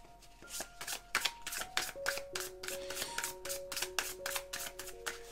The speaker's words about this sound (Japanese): では、ここでちょっとね、アドバイスカードをもらっていこうと思います。